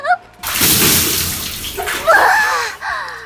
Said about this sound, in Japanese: はいはい、頭洗ってあげるから息止めて。